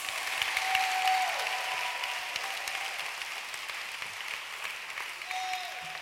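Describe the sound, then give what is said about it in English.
Church audience clapping their hands together during a service. Many hands make dense, continuous applause that stays fairly faint and steady for the whole stretch. “Can you clap your hands?”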